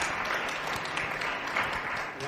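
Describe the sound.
An audience applauds with dense, steady clapping that stays at an even loudness throughout.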